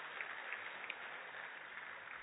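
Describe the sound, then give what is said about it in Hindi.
Applause from an audience welcoming guests, a steady faint patter of many hands clapping without a break and no voices over it. “हम सभी एक बार जोरदार करतल ध्वनि से इनका स्वागत और अभिनंदन करेंगे।”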